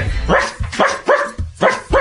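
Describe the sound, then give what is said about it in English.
A person imitates a dog's barking as a vocal exercise for MC rapping technique. Several loud, gruff, bark-like vocal bursts come in a fairly steady rhythm with short gaps between them. “And what I always make people do is actually bark like a dog. Bark like a dog? You bark like a dog.”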